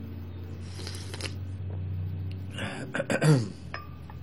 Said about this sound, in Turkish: evet, öksürük bitti.